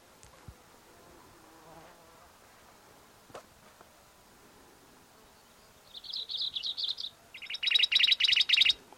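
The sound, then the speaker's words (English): Song of a black-throated gray warbler: two high, buzzy phrases of rapid pulsed notes near the end, the first thinner and softer, the second louder and wheezier, following a stretch of faint background hiss with a few scattered clicks. “black throated gray warbler in there.”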